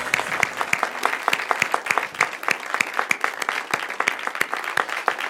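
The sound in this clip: A church audience applauds to welcome a guest speaker, many hands clapping in a dense, lively patter that stays fairly steady, with no talk over it.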